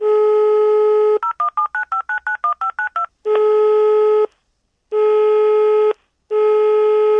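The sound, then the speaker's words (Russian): Touch-tone telephone dialing: a steady dial tone, then a rapid string of short keypad beeps of shifting pitch, followed by three long ringing tones separated by silent gaps. “Сегодня я позвонила киноведу, журналисту и литературному критику Елене Захаровой.”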